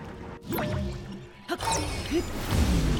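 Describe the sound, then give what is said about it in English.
Video-game splashes as a character falls off a water wheel into the water in an action-adventure game: a couple of splashy impacts mixed with tonal game effects and chimes, with a steady watery wash underneath. “Accidentally fall off the water wheel into the water.”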